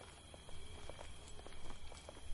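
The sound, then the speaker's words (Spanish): Footsteps of two people walking along a road at night by phone light: a faint, regular series of soft steps over a low, constant hiss. “Camina con Gloria por la carretera, alumbrando con el móvil.”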